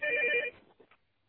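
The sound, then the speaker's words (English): A telephone ringing, one short burst of a steady electronic ring tone that cuts off after about half a second and leaves a faint fading trail. “My other phone is ringing. Hold on a second. I have to pick it up and hang it up.”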